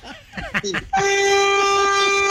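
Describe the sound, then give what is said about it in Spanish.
A vehicle horn honking in one long, steady, harmonically rich blare that holds to the end, right after a brief burst of voice. “Toque pito.”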